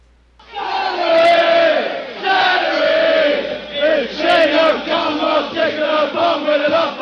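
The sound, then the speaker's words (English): Football crowd chanting a repetitive chant about celery, many voices singing together in a steady rhythmic pattern of repeated syllables, loud and sustained throughout with short breaks between phrases. “That is just the stupidest thing. It has nothing to pertain to soccer. It's just a stupid chant.”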